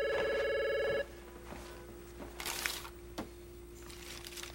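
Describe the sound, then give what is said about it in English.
A telephone rings in a single bright, steady burst lasting about a second, then falls silent, leaving only faint clicks and a low background hum. “The call display shows that Laura is calling. Joseph gazes at the phone”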